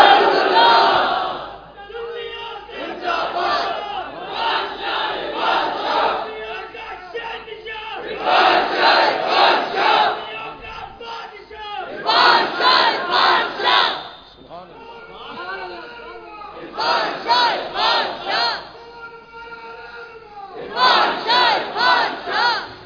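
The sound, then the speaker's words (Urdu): A large crowd loudly chants the Naara-e-Risalat slogan, including people seated in rear verandas, in repeated forceful bursts of massed shouting separated by short pauses. “لول سے او عاشق جو پچھلے برآمدوں میں بیٹھے ہیں زور سے نعرہ رسالت.”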